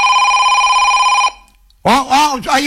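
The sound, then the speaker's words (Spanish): A telephone rings on an outgoing call, a loud steady ringing tone lasting just over a second that stops abruptly, followed after a short pause by a voice talking. “A ver si me atiende, lo estoy llamando.”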